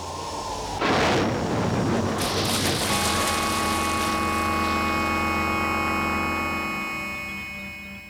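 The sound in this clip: An aircraft crash-lands on the Rio Alalao with a sudden loud impact, then a sustained heavy roar. Steady humming tones run through the roar, which slowly fades toward the end.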